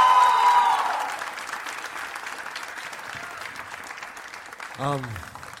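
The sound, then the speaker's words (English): Loud audience applause at a live music performance, a dense wash of clapping that starts strong and slowly fades, with a brief voice rising near the end. “Wow. This feels really nice. What a great audience. Clap one more time for your songs.”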